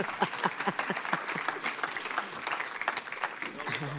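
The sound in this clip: An audience applauds to welcome a motivational speaker onto the stage. Brisk, crackling clapping keeps an even intensity, with voices faintly mixed in underneath.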